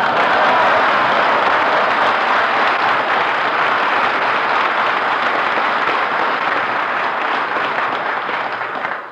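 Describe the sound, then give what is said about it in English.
Studio audience applause greets a performer's entrance on a 1953 radio comedy program: loud, dense clapping holds steady for about nine seconds, then drops off sharply at the very end. “Why do you always ask for applause when you make your entrance?”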